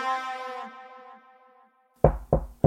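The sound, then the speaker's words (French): Three firm knocks on a door, quick and closely spaced, sound alone after a sustained harmonic tone fades into silence. “Ben, ça toque à la porte.”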